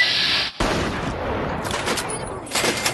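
Gunfire in a video game: a burst of sharp, loud shots crackles through a dense, noisy game soundscape, with repeated reports toward the end.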